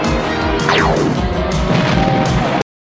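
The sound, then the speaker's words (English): Submarines firing multiple torpedoes at each other: a dense, continuous rumble of booming blasts with a descending whistle sweeping down through it, loud throughout, before cutting off abruptly. “So we see uh, Piranha firing uh, multiple torpedoes at Shark”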